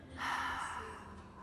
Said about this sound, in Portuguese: Inspira. Expira. Inspira. Expira.